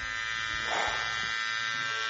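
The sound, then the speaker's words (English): An electric shaver buzzes steadily as a mustache is shaved off, a faint continuous drone that swells briefly partway through before settling back to an even hum. “Oh, okay, I did it. I shaved my mustache off.”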